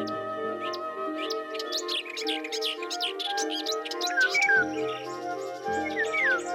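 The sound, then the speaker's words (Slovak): Forest birdsong from bee-eaters, cooing pigeons, whistling thrushes and finches: many quick chirps and rising and falling whistles scattered over a steady tonal drone, with no talking. “Celý les zvučal množstvom hlasov.”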